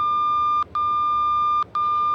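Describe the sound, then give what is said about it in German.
A fire brigade pager sounds an alert: a steady, piercing high electronic tone broken twice by pairs of brief gaps. “Der altertümliche Pager alarmiert den Feuerwehrmann, der zu Hause, auf Arbeit oder unterwegs ist.”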